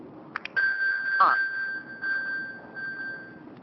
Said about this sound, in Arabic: الآن هذا هو الآيفون يرن بكل قوة، بإمكانك أن تسمع صوت بكل وضوح وتعثر على جهازك المفقود